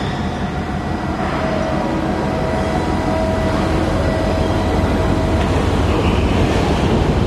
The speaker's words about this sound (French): Le jour se lève à Yantian, sur le terminal des conteneurs, au bout du quai. Là où l'on est amarré.